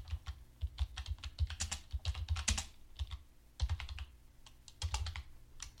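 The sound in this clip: Typing a search for a Monopoly iron piece into eBay on a computer keyboard: rapid, uneven bursts of key clicks with short pauses between them, moderately loud and with no voices.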